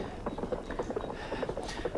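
Horse hooves clip-clop in a steady, even rhythm for a stretch of many quiet beats, a horse being ridden across the wilderness toward an oasis in an Arabic radio drama, with no talking.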